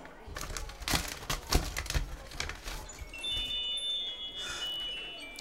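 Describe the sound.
A greeting card being opened, a few crisp papery rustles and crinkles early on that then settle into quieter handling.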